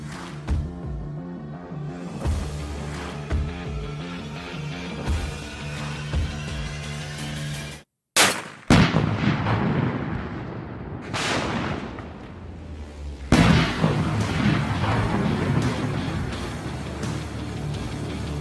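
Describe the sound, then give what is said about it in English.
Booming gunfire from a 50 caliber gun: heavy blasts burst in suddenly after a brief silence, and another loud volley comes later, over dramatic music that plays throughout. “sign up to win my 50 caliber gun before Joe Biden bans it”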